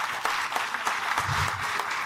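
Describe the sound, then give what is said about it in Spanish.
Applause for an official, a director general of agricultural productivity, at a public event in Puebla: brief, fairly faint, steady clapping from many hands. “Un aplauso, por favor.”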